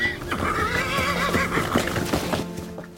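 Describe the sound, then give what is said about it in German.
An old, worn-out horse whinnies, a wavering, quavering cry that trails off over a steady low background rumble. “Mit diesem Gaul ist nicht mehr viel anzufangen.”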